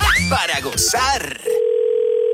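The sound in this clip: A telephone tone sounds while a prank call is placed to a chef: a voice speaks briefly, then a steady, mid-pitched continuous tone begins and holds to the end.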